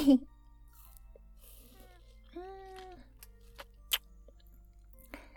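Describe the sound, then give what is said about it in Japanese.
Someone chews and crunches a limited-edition muscat-flavoured treat. A few sharp bites stand out against a quiet background, with soft voiced hums in between. “僕が食べるとこ見たいって？変なの。でもいただきます。”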